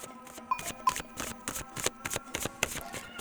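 Crisp shuffling and snapping of cards during a card reading, as oracle cards are drawn: a run of sharp, irregular papery snaps and riffles across the whole clip, fairly quiet and without talk.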